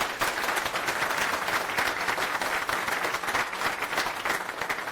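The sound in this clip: An audience applauds the development team at the end of a technical talk. The clapping is dense and continuous and keeps an even loudness for the whole stretch.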